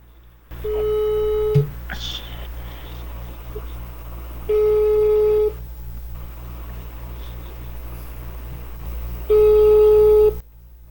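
Ringback tone of an outgoing telephone call: three steady, mid-pitched beeps about a second long, spaced roughly four seconds apart over a low background hum.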